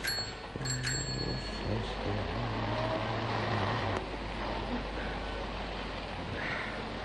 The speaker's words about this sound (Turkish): minibüs geliyor.